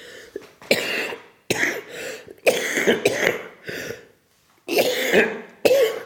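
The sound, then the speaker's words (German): Repeated coughing fits, several harsh bursts with brief pauses between them, loud and without speech. “Geht die Husterei schon wieder los.”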